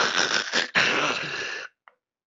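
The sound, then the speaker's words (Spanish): A voice imitates sleep apnea breathing with a harsh, rasping, snore-like rush of breath. It comes in two bursts, split by a brief catch, and stops abruptly, leaving a tiny faint sound afterward. “Por eso es importante saber cómo suena una apnea del sueño y les voy en exclusiva a enseñar cómo suena eso.”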